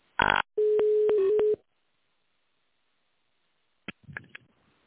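Telephone line tones play while a call is being transferred: a short loud burst, then a steady tone of about a second broken by a few clicks, a long silence, and faint clicks and crackle at the end.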